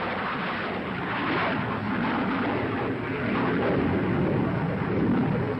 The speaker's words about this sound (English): the Regulus churns up the water as it is blasted off the cruiser Helena.